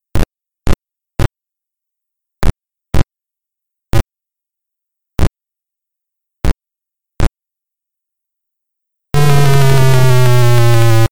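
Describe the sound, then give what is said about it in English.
Sound effects from a Frogger-clone video game on the Commodore 16 and Plus/4: nine sharp, isolated clicks at uneven intervals, then a loud, sustained harsh buzzing tone over a low drone. “Here's a quick example of the amazing sound in Hop It for the C16.”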